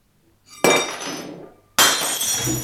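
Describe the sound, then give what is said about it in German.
A drinking glass knocked over at a table where hot grog is being poured: two loud, sharp glassy crashes, each followed by bright ringing clatter that slowly decays, with no talk over them. “Oh, ich habe mein Glas umgeworfen.”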